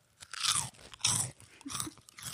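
Crisp crunching of a cinnamon twist snack being bitten and chewed: a few bright, gritty bursts of crunch separated by short pauses, with no talking.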